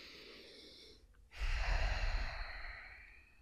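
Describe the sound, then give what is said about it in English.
A deep breath in, taken on request during an energy reading: a quieter breath first, then one long, loud, airy inhale with a low rush that swells and slowly fades over about two seconds, with no talk. “But let me have you take a deep breath in for me.”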